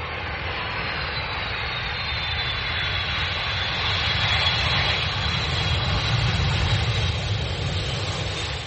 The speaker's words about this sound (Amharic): የተከበራችሁ መንገደኞቻችን አዲስ አበባው ቦሌ አውሮፕላን ማረፊያ እየደረስን ነው። ልነው አዲስ በበረራችን እንደተደሰታችሁ ተስፋ እናደርጋለን።